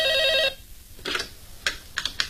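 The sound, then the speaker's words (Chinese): A telephone ringing with a bright, warbling electronic tone for about half a second. It then stops, followed by a few sharp, separate clicks. “一大早，803和沈西就守候在电话机边上。 哎，来了。”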